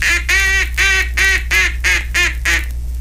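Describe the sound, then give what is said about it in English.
A hand-blown duck call sounds the key tone of wild duck calls: seven buzzy, reedy quacks in an even rhythm, fairly loud and alone. “That, of course, is just the elementary procedure in making the key tone of the various calls which make up the wild duck language, and sounds like this when applied to the duck call.”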